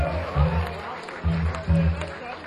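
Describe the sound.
An audience applauds a drummer at a live music show, with a steady bed of clapping and a man's voice talking over it.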